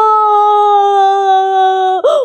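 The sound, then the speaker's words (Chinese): A storyteller voices a child crying loudly in a children's tale. A loud, drawn-out wail holds a steady pitch for about two seconds, then breaks into a short, wavering sob at the end. “我最喜欢看小东咧嘴大哭的样子，瞧，他已经哭了起来。”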